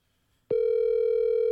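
A telephone call tone starts abruptly after near silence and holds one steady, loud, unbroken pitch with bright overtones, heard alone.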